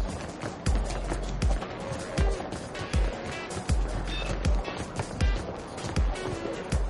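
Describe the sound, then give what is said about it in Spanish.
Running footsteps descend a staircase during a shootout, a steady run of heavy thuds about half a second apart over a continuous noisy background. “baja corriendo por unas escaleras”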